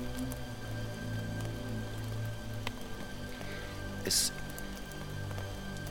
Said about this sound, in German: Da ist nur der Regen.